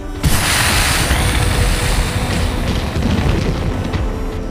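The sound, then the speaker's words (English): A loud explosion blast in an audio drama roars as one dense, sustained rumbling wash of noise that stays heavy and even for the whole clip, with no voices. “Fifty-seven evaded the blast as he hurtled his battering ram figure across the garden.”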